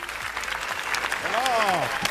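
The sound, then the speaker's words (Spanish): Sustained applause from a Cannes Film Festival audience giving a long ovation after a film screening, a steady wash of clapping with a voice speaking over it. “Y ahora vamos a aplaudir.”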